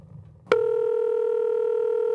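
A telephone dial tone on an outgoing call: after a brief, nearly quiet moment, a loud, steady continuous tone starts abruptly and holds unchanged to the end.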